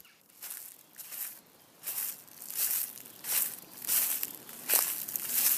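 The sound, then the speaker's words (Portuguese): Footsteps crunch along a trail in a steady walking rhythm, a series of soft, gritty steps that are faint and heard alone. “Vamos começar nossa caminhada pela trilha então? Vamos nessa, pessoal!”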